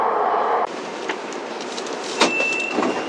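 A Beijing subway train pulls into Jiaomen West station with a steady rolling rumble, broken by brief rattles and a thin, sustained high whine near the end.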